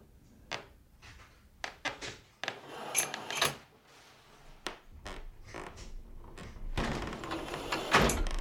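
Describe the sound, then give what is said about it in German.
Red plastic door handles are pressed, giving several sharp clicks and clunks at irregular intervals. These are quiet, with a louder, rattling stretch of handling noise near the end. “Drückten die roten Plastiktürgriffe”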